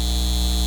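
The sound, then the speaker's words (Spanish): Data center hum: a steady, unbroken electrical drone with a strong low tone and stacked buzzy overtones, holding level for under a second. “Este es el sonido de un centro de datos llevándose el agua de nuestra comunidad y aumentando nuestras facturas de servicios públicos.”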